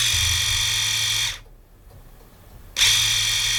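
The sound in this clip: An electric shaver, switched on while turned upside down, runs its cleaning program with a loud, high buzzing whir. The buzz cuts out for about a second and a half, then abruptly resumes at full strength.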